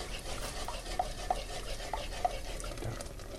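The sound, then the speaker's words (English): A spoon stirring a starch-thickened sauce in a pan as it comes to the boil: soft, continuous scraping and swishing with a few light clicks, faint and steady, with no talking. “The important thing to do is to keep stirring it. It's going to come to the boil and I need it to cook for 1 or 2 minutes to really cook out the starch in the sauce.”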